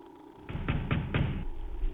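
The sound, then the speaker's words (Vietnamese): Rapid pounding knocks on a door, heard as a few heavy, muffled thuds in quick succession that stop abruptly. “Sau một khoảng thời gian chờ đợi ngắn ngủi, tiếng đập cửa dồn dập vang lên.”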